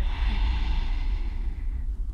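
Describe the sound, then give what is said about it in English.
A steady, breathy rasp of air pushed out through the throat with the mouth closed during a breathing exercise. It is continuous and fairly loud, with a low, rough rumble throughout. “And on your exhale, you're gonna keep your mouth closed and the air is coming through the throat.”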